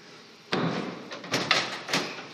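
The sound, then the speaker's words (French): A heavy wooden armoire door is opened and lifted slightly, giving a few woody knocks and creaky scrapes in an uneven rhythm, moderately loud against quiet surroundings. “Donc la porte est quand même très très lourde. Il y a un léger affaissement, donc pour toujours des meubles qu'il faut quand même manier avec précaution. Donc il faut que j'accompagne la porte en la soulevant légèrement”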